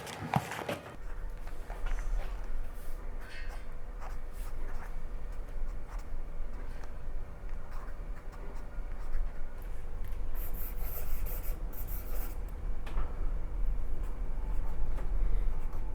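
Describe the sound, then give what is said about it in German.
A pen scratches across paper as someone writes a short sentence in a guestbook. Soft, continuous scraping strokes with brief pauses run throughout. “Das kommt direkt raus, wird da jetzt eingeklebt und Sie schreiben mir da sogar ein kleines Sätzchen dazu.”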